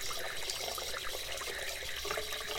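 Water runs steadily while someone bathes, a continuous splashing, pouring rush with no voices.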